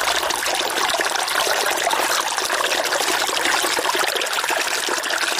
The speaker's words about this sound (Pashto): د بیلابیلو سیلانیانو کوربا سنگلاغ په خپل څنګ کې یو کوچنی سیند هم لري چې سیلانیان ورڅخه زیات خوند اخلي.